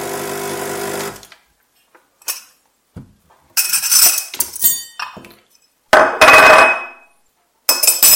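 A coffee cup and teaspoon clink as a long coffee is served: a few sharp bursts of rattling porcelain and metal clinks, separated by brief silences, with no talking.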